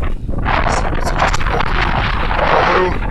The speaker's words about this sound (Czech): Zase začíná pěkně foukat, takže se vám snad ozvu později.